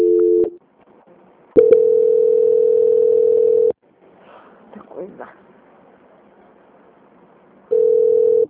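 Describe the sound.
Telephone call-transfer tone: a steady, single-pitched beep in three bursts, a short one, a longer one of about two seconds and a final one, with faint muffled sounds in the quiet gaps between.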